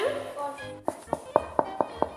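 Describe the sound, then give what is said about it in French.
Knocking stands in for a wolf rapping on a door in a told story of the little pigs. After a short stretch of speech come seven quick, evenly spaced, sharp knocks. “il toque.”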